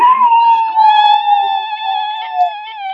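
A cat meows after being woken: one long, drawn-out tonal yowl that lasts about three seconds, loud and clear, with a steady, slightly wavering pitch and no talking over it.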